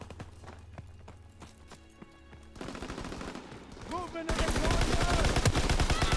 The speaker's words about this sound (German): Einfach reinchargen und ballern dabei.